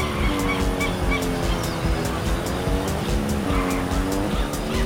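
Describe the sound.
Race cars in a video game roar with continuous engine whine and screeching tire squeal, the engine tones sliding up and down as the cars push through the track, loud and unbroken throughout.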